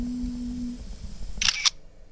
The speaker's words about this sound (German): Sie machte 3 Fotos mit ihrem Mehrzwecktelefon.